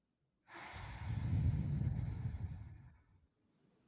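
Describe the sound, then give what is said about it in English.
A single deep inhaled breath, soft and airy, swelling over about two and a half seconds before tapering off, heard alone. “let's take in a deep breath.”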